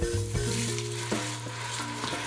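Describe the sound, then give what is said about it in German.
Onions sweat in butter in a pan, giving a steady, even sizzle of frying with a few faint stirring knocks and a low hum underneath. “Die Zwiebeln werden in Butter angeschwitzt und mit Wein abgelöscht.”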